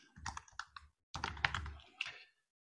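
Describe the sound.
Typing on a computer keyboard, with quick clusters of clicking keystrokes in two bursts separated by a short pause, fairly faint and without talk.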